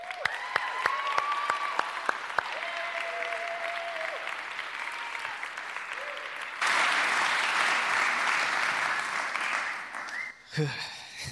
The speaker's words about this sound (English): please put your hands together and welcome my friend Eric Samuel.